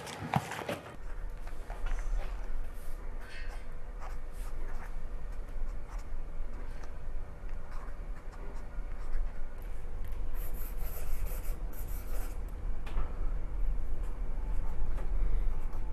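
A pen scratches a short sentence into a guestbook page, producing a faint, continuous dry rasp of rubbing strokes that runs throughout without pauses.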